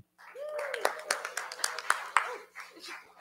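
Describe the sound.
Applause from a church audience welcoming a speaker to the front: many sharp hand claps in a quick, uneven patter that swells and then fades out, with a voice briefly audible among them.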